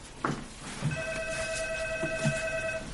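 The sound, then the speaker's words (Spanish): A telephone rings with one steady electronic tone lasting about two seconds, fairly faint over low background noise and soft knocks, in a scene from a 2006 romantic drama film. “mientras su amigo responde al teléfono”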